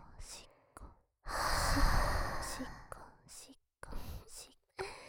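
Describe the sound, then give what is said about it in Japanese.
Hot breath blown into one ear, a long, soft, airy exhale set among whispered murmurs and a few shorter breathy puffs, all very quiet and intimate. “熱い吐息のトッピング。こっちの耳にも吹きかけてあげます。”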